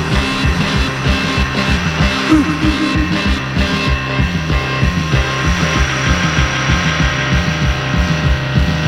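Minimal electronic rock track with a droning, throbbing synth and a relentless repetitive pulse, looping in a steady mechanical rhythm at a loud, constant level.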